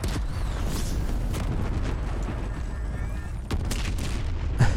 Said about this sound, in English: Everything's blowing up.